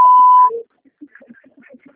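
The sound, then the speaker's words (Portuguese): A voicemail tone sounds before a message is recorded: one steady, mid-pitched electronic beep lasting about half a second, followed by faint, sparse blips and near-silence. “Sua chamada está sendo encaminhada para a caixa de mensagens e estará após o sinal.”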